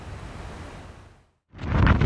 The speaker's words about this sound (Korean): 칭다오시 해안가에 집채만한 파도가 도로를 덮칩니다.